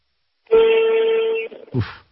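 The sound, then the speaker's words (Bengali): A car horn honks down a phone line: one sustained, steady blast lasts about a second, then a brief second burst follows, with no talking. “মানে ভয়ঙ্কর না, মানে একটা গাড়ি phone করছে সে রীতিমতো horn বাজাচ্ছে।”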